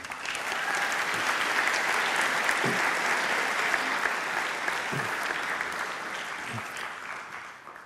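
Congregation applause at Grace Chapel welcoming a guest to the platform: a steady, dense wash of clapping that holds for the whole stretch and tapers slightly near the end.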